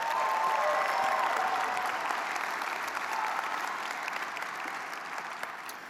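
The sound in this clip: An audience claps to welcome visiting guests, prospective university students and their loved ones. The applause is dense and steady, starts at full strength, and thins and softens slightly toward the end, with no voices over it.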